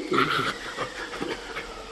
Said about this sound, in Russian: Я в первый раз вижу в упряжке собак.